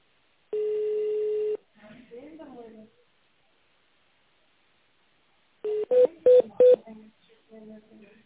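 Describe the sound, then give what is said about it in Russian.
Telephone keypad tones dial an extension number on an automated office phone line: one long steady beep, then a quick run of four short touch-tones, with faint murmuring sounds in the gaps. “If you know the English extension, dial it in the tone mode or wait for a secretary assistant.”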